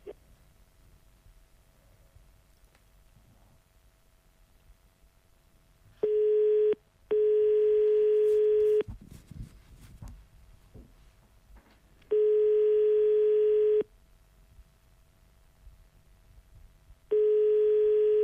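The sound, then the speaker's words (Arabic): Phone line tone after a dropped call: steady, pure electronic tone sounding in four long bursts separated by gaps, the last one cut off, over a faint background hiss. “الو انقطع الخط هاني لنا او انقطع الخط عبد الرحيم عاوتاني عيط لنا عاود الاتصال”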